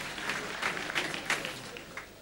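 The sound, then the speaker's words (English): Applause from an audience at a church healing service, a steady wash of clapping with a few slightly louder swells, moderately quiet and without talk. “Clap for Jesus Christ.”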